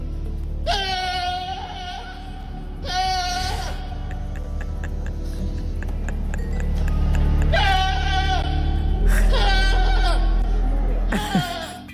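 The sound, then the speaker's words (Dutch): A goat bleats along with a church organ during an animal-blessing service in a cathedral: several loud, wavering, wailing bleats come in separate bursts over steady, sustained low organ chords. “Tijdens een speciale dienst om dieren te zegenen in een Britse kathedraal begon Pablo de Geit mee te zingen met het orgel.”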